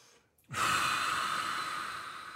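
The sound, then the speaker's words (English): A single deep, forceful breath taken during a guided breathing exercise, bursting in suddenly and trailing off slowly as a long, airy rush. “Whatever you feel, make it stronger. Breathe into it.”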